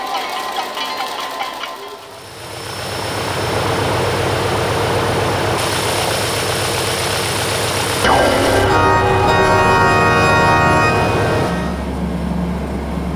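A video game airplane engine drones loudly as the plane departs, with a heavy low rumble and steady hum. Its tone shifts abruptly twice partway through, and bright sustained tones appear later.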